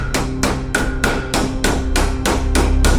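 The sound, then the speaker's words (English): Vigorous hammering on something metallic gives a rapid, evenly spaced run of sharp, ringing strikes, each a loud clang with a short bright tail, continuing without pause for about three seconds. “He hammers vigorously away on something metallic.”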